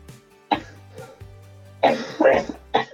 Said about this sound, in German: so der Huster bleibt jetzt hier drin